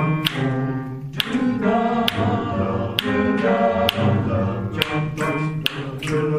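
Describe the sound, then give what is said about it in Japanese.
Choir singers snapping their fingers at the start of a bass part, sharp crisp snaps falling in a steady beat roughly once a second over sustained sung tones. “44小節目から皆さん指パッチンから始めます。”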